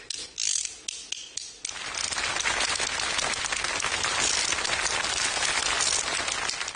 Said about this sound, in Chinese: 手艺就两个小竹板，你看上面 能打响吗？